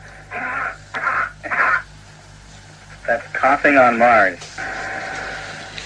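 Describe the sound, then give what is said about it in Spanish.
Human coughing played as it would sound on Earth and as simulated on Mars: a few short, harsh coughs, followed by a voice talking over a steady low hum. “Vamos a repetir la tos en la Tierra y la tos en Marte.”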